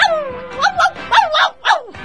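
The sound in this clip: A small dog barks in a quick run of several sharp, high-pitched yips with a whiny edge, loud and alone.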